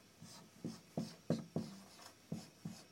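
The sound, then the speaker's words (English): A lecturer writes characters on a board in seven faint, scratchy strokes, each starting with a sharp attack and then fading, spaced at an irregular pace. “I'm going to write on the board here, I should have done this earlier, but you'll see this term.”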